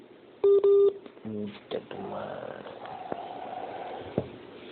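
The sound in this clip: Telephone dialing tones ring out as a call is placed: a couple of longer dual-tone beeps, then a quick run of shorter tones. Voices follow over a thin, narrow-band line.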